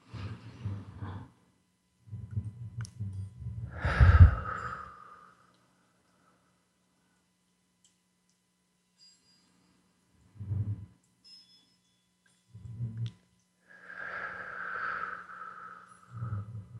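Deep breaths drawn in and slowly exhaled come as several low, rumbling bursts of airflow separated by quiet pauses, with a couple of the exhales sounding more breathy and blown.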